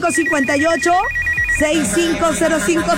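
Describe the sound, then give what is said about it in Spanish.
A telephone rings after a number is dialed: a steady pulsing electronic tone sounds beneath people talking, then cuts off about halfway through as the voices carry on. “vámonos. Vámonos a marcar”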